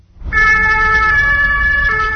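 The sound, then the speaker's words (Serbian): A fire and rescue vehicle siren in Serbia wails loudly and steadily throughout, a sustained, bright, high tone with strong harmonics over a low rumble of road noise, with no talk. “Sirena na vatrogasno-spasilačkim vozilima u Srbiji se oglasi na svakih 14 minuta.”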